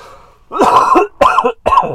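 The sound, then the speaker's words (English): A person with a lingering cough coughs and clears their throat in three loud, rough bursts, the first longest and the last two short and close together. “Oh, I still have my cough.”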